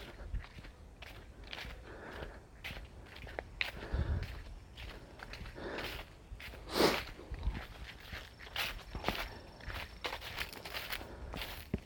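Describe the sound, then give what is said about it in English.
Footsteps of several people walking past, with many irregular steps and scuffs at a steady moderate level, with one louder step cluster near the middle and no talking. “Hold up, there's some people coming.”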